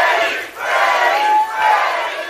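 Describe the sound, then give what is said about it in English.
A crowd chants to greet horror actor Robert Englund at his Hollywood Walk of Fame star ceremony, loud and sustained, swelling in three rhythmic waves with short dips between them. “He was greeted in Hollywood by a crowd that started chanting.”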